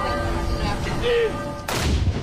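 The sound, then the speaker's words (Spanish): An army gun salute fired at noon in Norway to honour a deceased monarch: one heavy cannon blast booms out after steady sustained ringing tones, its rumble lingering to the end. “A mediodía sonaban las campanas de todo el país y el ejército disparaba salvas en su honor.”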